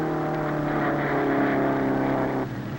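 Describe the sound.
A jalopy's engine at a hot rod race gives a steady, loud, droning roar that drops slightly near the end.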